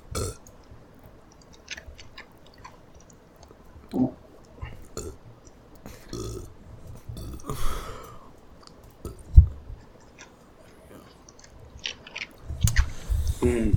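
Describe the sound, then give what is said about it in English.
Someone chewing food makes irregular wet biting and chewing noises. Breaths and a throaty gulp or burp-like sound are mixed in, the mouth sounds come and go at moderate loudness, and no one speaks. “No, I'm finished eating.”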